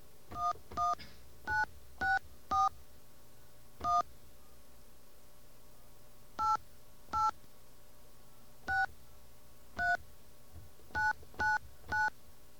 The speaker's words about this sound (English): I'm not supposed to dial 9 either.